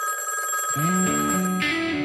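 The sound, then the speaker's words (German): A telephone ringing as a sound effect: a steady, continuous electronic ring lasting about two seconds, with shifting lower tones beneath it. “Dann kommt der Anruf seines Lebens.”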